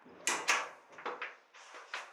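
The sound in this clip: Door sounds as an auto-lock door is opened: a series of sharp clunks and rattles, unevenly spaced, with no talk.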